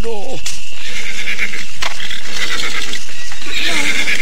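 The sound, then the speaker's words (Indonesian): A horse whinnies with a loud, descending neigh at the start and another at the end, separated by a steady background hiss. “Jika begitu, berilah makan kuda ini.”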